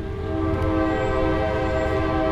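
A train horn sounds as a train runs through a small town in Coshocton, Ohio: a steady, loud, sustained tone held over low rumbling rail noise for the whole stretch, with no talk.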